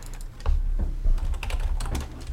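Keys clatter on a computer keyboard as someone types a web search. The keystrokes are many, quick and irregular, with no talking.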